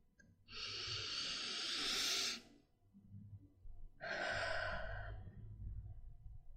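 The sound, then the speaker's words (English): A deep breath taken during a guided breathing exercise: two long, airy breath sounds, the first a steady rush of air lasting about two seconds, the second shorter after a brief pause, with no talking. “Let's do a deep breath now, actually. Here we go.”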